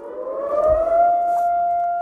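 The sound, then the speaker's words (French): Civil defense sirens sounding across China for national mourning of coronavirus victims, a loud sustained wail that climbs slightly in pitch before holding a steady tone. “Les sirènes retentissent dans le ciel chinois.”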